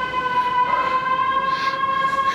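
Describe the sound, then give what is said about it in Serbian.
Emergency vehicle siren in traffic: a loud, steady high tone with bright overtones held throughout over a continuous low rumble. “Gomile sirene.”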